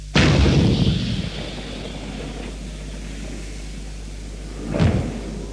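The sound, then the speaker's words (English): A 105mm tank gun fires from an M60 main battle tank: one loud, sharp blast that rolls into a long, heavy rumbling decay, then a second, smaller boom near the end. “The 105mm tank gun fired from an M60 main battle tank.”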